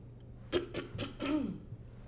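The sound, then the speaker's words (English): A man with a crackly, hoarse voice clears his throat in a few rough, guttural bursts. The last, longer rasp is voiced and falls away into quiet background hum. “I have to be going to the side, you know, clear my throat and all of that.”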